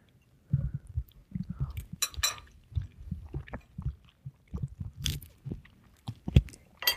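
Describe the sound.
Chewing a bite of a peppered tofu dish: many irregular, faint, moist crunching and squishing bites, with no talking over them.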